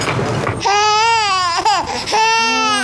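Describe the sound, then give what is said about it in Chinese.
An infant cries loudly in a few wailing bursts. The pitch wavers and breaks between cries. “这孩子怎么这么能哭？ 哦，好了好了好了，不哭了啊。”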